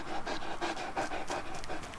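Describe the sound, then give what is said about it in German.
A dog pants rapidly and steadily, a quick run of short breathy huffs in an even rhythm with no voices over it. “Na, komm her, feiner Hund.”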